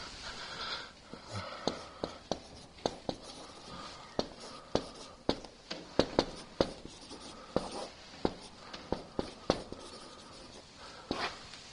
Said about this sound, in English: Should you write it on the board? Oh. I should write that on the board.